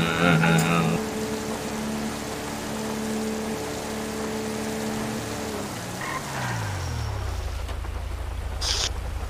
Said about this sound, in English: Oh, we got the V8 engine there.